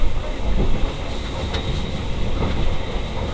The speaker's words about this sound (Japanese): 5分ほどで終点上野です。お忘れ物、落とし物なさいませんよう、お支度をしてお待ちください。13番線到着、降り口は右側です。